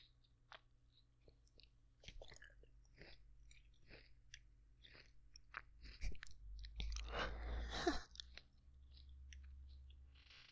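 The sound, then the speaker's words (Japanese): Someone chews and eats a mandarin orange, making faint, wet chewing sounds with many small clicks and crunchy bites. The chewing grows noticeably louder for a couple of seconds near the end. “ちょっと練習するためにみかんをね、食べたんですけど、前の方が美味しかった。”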